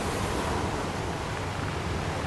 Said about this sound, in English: You can hear the ocean in the background after teaching him how to swim here.